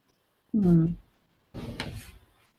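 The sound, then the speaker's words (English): A door closes: a short, tonal creaking squeal comes first, then after a brief pause a broader, muffled shutting thud that trails off into quiet. “And the door is closed.”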